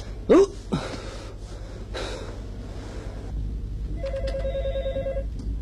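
A telephone rings with one bright, trilling burst near the end, preceded by a couple of sharp, breathy gasps over a low background rumble.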